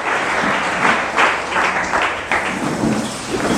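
A church audience applauds, a dense, loud wash of continuous clapping that swells in a few surges and holds steady to the end.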